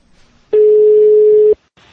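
A telephone ringing, sounding as a single loud, steady electronic tone held for about one second, pure and unwavering, with faint background noise before and after it.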